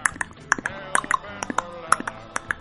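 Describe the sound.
A voice imitates a horse's clip-clop with many quick, hollow tongue clicks in an uneven trotting rhythm, sharp and distinct over a quiet background.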